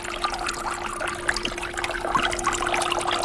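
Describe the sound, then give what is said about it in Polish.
Water splashing in a closed-loop fountain, a steady, dense patter and splash with a constant low hum beneath it. “a że nie brakuje tam dźwięku pluskania, to chyba wskakujemy teraz z Alicją Patanowską do fontanny.”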